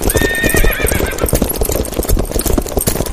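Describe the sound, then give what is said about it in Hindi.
Several horses gallop with rapid, dense hoofbeats pounding throughout. A loud whinny rings out over the hooves in the first second. “कि कोई बहुत दूर से कुछ घोड़े दौड़कर हमारी तरफ आ रहे हैं और वो धीरे धीरे धीरे धीरे करके आवाजें हमारी तरफ बढ़ रही हैं।”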